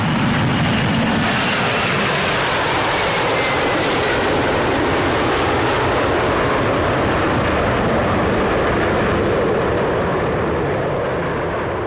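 An airplane taking off: a loud, continuous engine roar with a whining tone that holds for about twelve seconds and eases slightly at the end.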